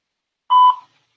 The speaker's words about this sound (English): At the tone, please record your message. When you finish recording, you may hang up or press 1 for more options.